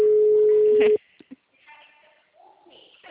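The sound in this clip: Telephone call tone from an outgoing call: a steady, single-pitched electronic tone holds for about a second and cuts off abruptly, followed by faint brief sounds that may be voices.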